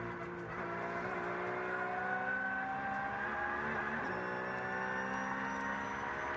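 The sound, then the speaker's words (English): Loud, sustained engine note from a Black Falcon Porsche race car, recorded on board while it runs a clear track during a race; the steady drone shifts pitch slightly, with brief breaks that sound like gear changes. “We're staying on board with Giorgio Piani in the Black Falcon Porsche, who's giving us a little masterclass on how to drive this clear track for him at the moment.”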